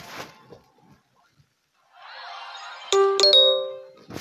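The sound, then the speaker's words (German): A message notification chime sounds during mobile gameplay: a few bright, ringing dings that layer and linger over a steady game background hum, with short noisy bursts at the start and end. “So, ich habe eine Nachricht gekriegt.”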